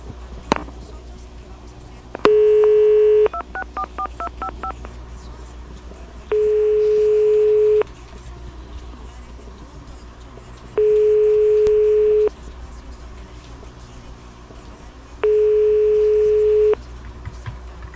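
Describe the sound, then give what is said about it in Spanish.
Telephone line tone on a call that has just been hung up: four long, steady, mid-pitched beeps separated by pauses of a few seconds, over a constant low hum. “¿Aló? ¿Ven? Nos cuelga. ¿Aló? ¿Aló?”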